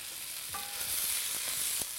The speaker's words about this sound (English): My sausage and peppers have been cooking for about a little more than 10 minutes. I have it on high